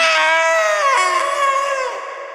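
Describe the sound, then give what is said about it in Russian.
A man lets out a terrible scream after an electric shock: one loud, harsh, sustained cry lasting about two seconds that eases off slightly at the end. “Дядю в этот самый миг током долбануло, он издал ужасный крик”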